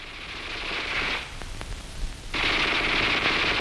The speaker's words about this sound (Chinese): 那小歪把子声音多脆呀